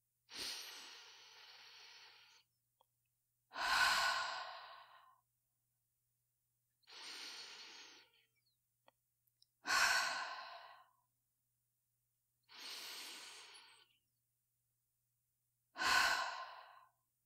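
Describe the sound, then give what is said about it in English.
Three long, deep breaths taken during a guided relaxation, heard as six quiet, airy breath sounds in an even rhythm. Softer and fuller breaths alternate, with silence between them and no talk. “Close your eyes and take three long, deep breaths”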